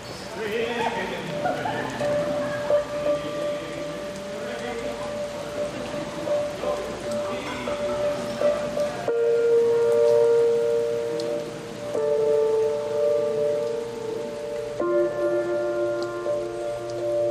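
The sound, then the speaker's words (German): Rain falling in a steady, hissing patter, heard under sustained musical tones that shift partway through. “Aber es hat gerade angefangen zu regnen. Ich fand es schon immer romantisch, durch den Regen zu laufen.”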